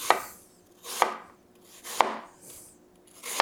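A knife slices an apple in half into slices. Four crisp chopping strokes fall roughly a second apart, each a sharp, clear hit that dies away quickly in quiet.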